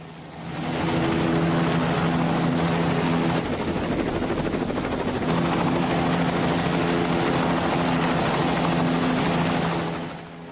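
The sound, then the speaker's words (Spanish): A helicopter lifts off with a loud, steady rotor and engine drone over a low throbbing hum. The sound swells in at the start, eases briefly midway and then fades out at the end. “El helicóptero se eleva.”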